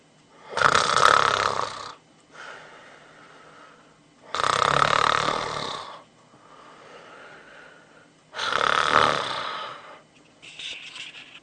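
A man snoring in his sleep: three loud, rasping snores at a slow, even rhythm, each followed by a quieter wheezy exhale, with the start of another breath at the end.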